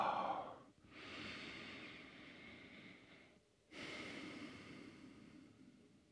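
Slow, faint breathing during a silent moment in a deep-flow yoga practice, with a few long, airy inhales and exhales separated by short pauses.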